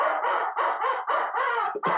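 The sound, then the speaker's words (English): Rubber chicken squawking in a few harsh, loud, honking bursts with brief breaks between them, the last one cut off sharply. “The rubber chicken says,”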